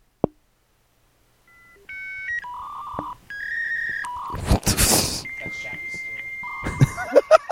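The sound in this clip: Dial-up internet modem connecting: a sharp click, then a run of dialing beeps and stepped electronic handshake tones, a loud burst of harsh static hiss, and sustained tones ending in warbling chirps and crackles.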